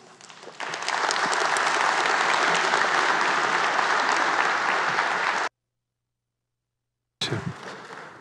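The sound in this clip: Audience applause welcomes a speaker to the stage at a church gathering: dense, steady clapping that swells quickly and holds for about five seconds before cutting off, followed after a pause by a voice beginning to speak.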